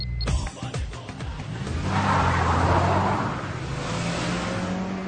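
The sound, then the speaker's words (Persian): A car engine starts and pulls away on a street outside a café, with a steady low engine hum under a loud, swelling roar as it accelerates. “ماشین رو روشن میکنه و حرکت میکنه”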